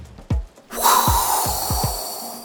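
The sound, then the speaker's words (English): A voice imitates blowing wind in a spoken folk tale. A quick breath in is followed by a long, steady breathy whoosh that lasts nearly two seconds. “took a deep breath, and blew right onto the Man of Stone's shadow.”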